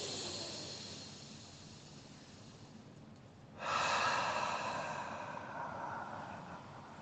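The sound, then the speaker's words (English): One deep breath during guided breathing: a long, quiet, airy inhale followed by a slightly louder exhale that slowly fades. There is no speech. “One more deep breath. Deep, big hug.”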